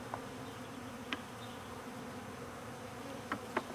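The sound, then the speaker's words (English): Bees buzz in a cage with a faint, steady, low drone. A few brief soft ticks rise above it. “So, no dumping of bees, huh? You think they're smart enough to find their way out of the cage?”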